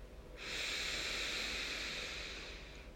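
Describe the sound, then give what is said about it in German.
A long, deep breath drawn in through the nose during a guided breathing exercise: a soft, steady airy hiss that lasts about two and a half seconds, heard alone with no talk. “Und dann atme nochmal tief durch die Nase ein”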